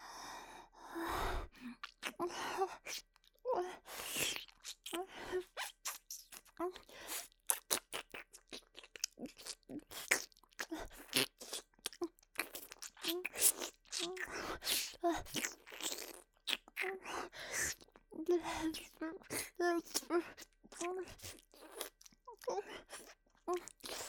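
ASMR ear-eating and ear-licking mouth sounds: many quiet, close, wet clicks, smacks and crunchy mouth noises in irregular bursts, mixed with soft breaths.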